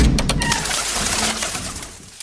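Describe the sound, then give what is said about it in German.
Dove cooing, heard in a retelling of the ark story where a dove is sent out over the floodwater: soft, low, steady coos running for a couple of seconds with no talk. “Noah schickt auch eine Taube hinaus.”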